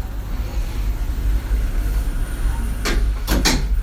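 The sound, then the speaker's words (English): Lift doors close under a steady, rumbling mechanical hum, with a few sharp clattering knocks near the end. “fermeture des portes. Doors closing.”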